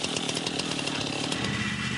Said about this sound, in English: He's in a tree with a chainsaw.